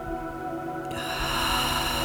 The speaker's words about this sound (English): Take a nice deep breath in through your nose. Hold it at the top.